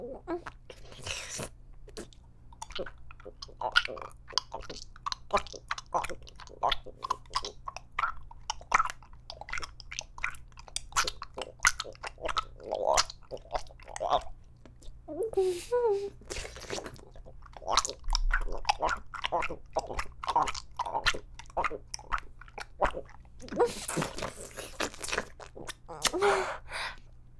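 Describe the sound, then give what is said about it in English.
Wet glugging swallows of a drink hitting the back of the throat. Many irregular, clicky mouth and throat sounds run throughout over a low, steady hum. “I count a glug as the sound of it hitting the back of my throat and sticking and stuff, you know? Like this.”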